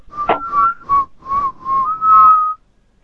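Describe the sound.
Whistling into a telephone: a run of short, clear whistled notes at a steady mid pitch, ending on a longer held note, with no talking.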